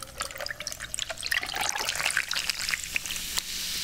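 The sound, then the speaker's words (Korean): Cola poured over large ice cubes makes a steady liquid stream, with bright crackling fizz and small ticks scattered throughout. “먼저 콜라부터 달고 갈까요? 여기 있는데 아 우주 콜라. 아, 얼음 거대.”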